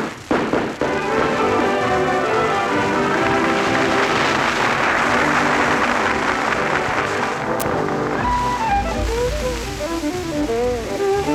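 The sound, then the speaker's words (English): A shootout in a mountain feud between two families brings a dense, crackling barrage of rapid gunfire, with many overlapping shots for about eight seconds before music takes over. “Load up them shooting irons, boys. And when I say three, start shooting. Three!”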